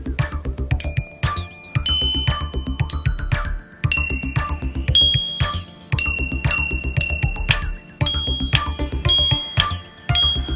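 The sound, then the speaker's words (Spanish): Bells chiming, with many ringing struck tones that sustain and overlap above a steady low, throbbing rhythmic backdrop at moderate loudness, with no talk. “Y, por cierto, un poco de campanadas.”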